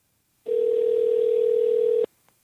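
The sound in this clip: A telephone tone sounds while a call is being placed: a single steady, mid-pitched electronic hum lasting about a second and a half, starting and stopping abruptly, with near silence before and after.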